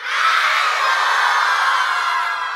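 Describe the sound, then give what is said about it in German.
A crowd of about 200 children shouts hello loudly together at a children's event at an art and media centre in Karlsruhe, forming one sustained, bright roar of voices that holds steady for the whole moment. “vor uns etwa 200 Kinder. Ja, können die nochmal ganz laut Hallo rufen?”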